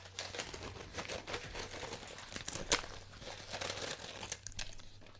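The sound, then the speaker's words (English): Spicy Takis Fuego rolled tortilla chips being crumbled, a steady run of dry crinkling and crunching with many small crackles over about five seconds and one sharper snap midway, with no talk. “Are you crumbling them up? Need to get some ASMR.”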